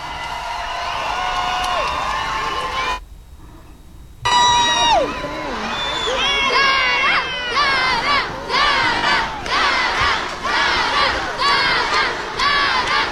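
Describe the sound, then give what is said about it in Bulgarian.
Fans at Sofia Airport cheer, scream and shout to welcome a singer returning with a song contest prize. The excited high voices rise in loud waves, fall to a brief lull, then return stronger. “Това е атмосферата на летище София в момента. Толкова много хора посрещат Дара. Много тържествено.”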